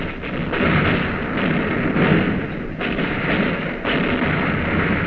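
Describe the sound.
Heavy naval gunfire with shells striking a Japanese cruiser: a dense, loud, continuous roar of blasts with a few sharper bursts standing out, and no voices.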